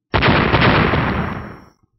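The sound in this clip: Electric arcs of water-lightning exploding against a body: a single loud, abrupt explosive burst with a crackling, rumbling texture that holds for about a second and a half, then fades and cuts off.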